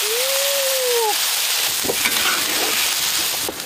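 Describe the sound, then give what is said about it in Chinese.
Chicken and five-finger fig root broth boiling in a wok, making a loud, steady bubbling hiss with scattered crackles and sputters that continue throughout. “然后是让它尽情的沸腾。 鸡肉混合着五指毛桃的奶香、柚子的清香，在锅里不断沸腾着”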